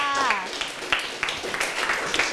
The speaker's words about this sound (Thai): เยี่ยมมากค่ะปรบมือให้เพื่อนค่ะ